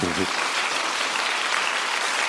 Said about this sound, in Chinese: 感谢你们给我鼓掌